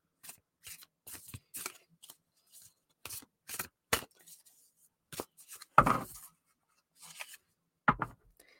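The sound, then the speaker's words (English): An oracle card deck being handled and a card pulled: many quick, papery flicks, slaps and rustles in irregular bursts, with a couple of louder, fuller rustles near the end. “Let me just pull this Oracle card here. Sorry about that.”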